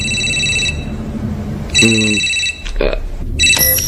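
Telephone ringing in three short bursts of high-pitched electronic trilling, separated by brief quieter gaps with other low sounds between them.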